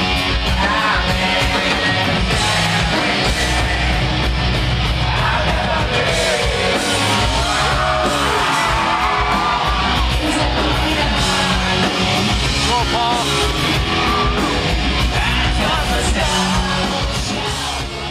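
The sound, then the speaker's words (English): A lo-fi audience recording of a live concert in Chicago: dense, loud, raw music blended with crowd yells and shouts, sustained throughout. “That recording was obviously made by somebody in the audience with a mic trying to catch the music as best as they possibly could. Yeah, it is raw, and it's more than a little lo-fi, but I also think it captures the energy of a historic live”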